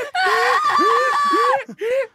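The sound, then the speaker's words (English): Two girls scream-crying, loud high wavering wails that rise and bend in pitch, one long sustained cry breaking off briefly before a shorter final wail. “Hot girl and cool girl burst out crying. They're scream crying.”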